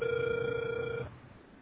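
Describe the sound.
Telephone ringback tone while a call connects: one steady, mid-pitched tone lasting about a second, then cutting off into quiet line hiss.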